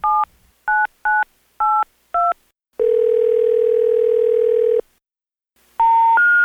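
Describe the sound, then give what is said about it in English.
Telephone keypad touch-tones dial a number: five short, crisp beeps in quick succession, then one long steady tone, then a further dual tone at the end. “The number you are dialing is no longer in service. Please check the number and dial again.”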